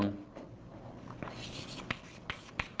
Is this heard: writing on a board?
yes